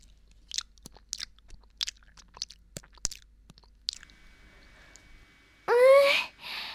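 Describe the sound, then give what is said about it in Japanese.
Crisp, crunchy chewing and biting of raw icefish: many short, sharp clicks in an uneven rhythm over a quiet background, followed by a brief voiced sound. “コリコリっとしてちょっと甘みがあっておいしい。白魚ってこんなにおいしいんだ。”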